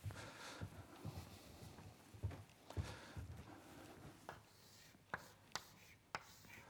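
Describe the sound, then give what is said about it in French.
Chalk writing on a board during a lecture: faint, irregular taps and scrapes spread unevenly across the stretch, with sharper isolated knocks toward the end. “Je vais quand même l'écrire là-bas où ça se verra un peu mieux,”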